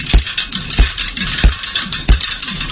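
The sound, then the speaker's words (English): Bicycle parts clank and click as a mechanical sound piece built like a Rube Goldberg machine, with four heavy low thumps at a steady even pace and scratchy ratcheting rattles filling the gaps between them. “he created a short video using bicycle parts in front of a black background. And when I phrase it like that, it doesn't necessarily seem like there's much to it, but there is. You've probably never heard bicycles making sounds like these.”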